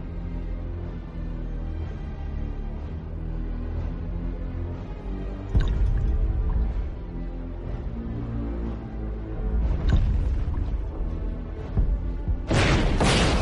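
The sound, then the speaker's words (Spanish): Artillery fire in a dramatized wartime scene of Soviet forces closing on the Reich Chancellery in Berlin: a few deep, heavy booms over a continuous low droning bed, with a sharper, brighter burst near the end. “Es la artillería. Todo está perdido.”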